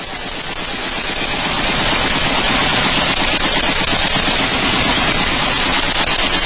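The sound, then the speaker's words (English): Rapid automatic gunfire, a dense, unbroken stream of shots that stays loud and steady from start to finish. “Is that a firearm gun? Yeah. You get that? You get that one?”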